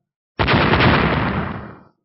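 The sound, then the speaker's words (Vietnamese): A loud explosive blast from clashing magic bow shadows: one abrupt, broad roaring burst that holds for about a second, then fades out. “cung ảnh chạm vào nhau, trong hư không liên tiếp phát ra những tiếng nổ mạnh”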